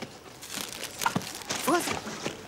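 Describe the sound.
A plastic bag crinkling in someone's hands as a group gathers, with faint, scattered rustles under people talking.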